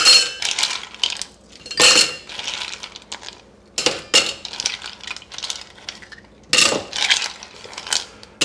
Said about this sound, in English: we need ice in this shaker now. It's 100 degrees outside. So I'm going to put some lots of cubes in the shaker and go from there.